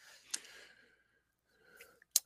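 A computer mouse clicks while a question is selected during a live online Q&A: a few quiet, sharp clicks separated by near silence and soft breathy noise, the last click the loudest.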